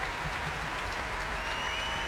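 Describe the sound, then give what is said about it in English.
Steady applause from a packed Proms audience in the arena, many young people standing as they clap; a dense, continuous wash of hand claps, fairly soft, with no clear breaks. “Lots of young people absolutely filling the arena and most of them standing to applaud.”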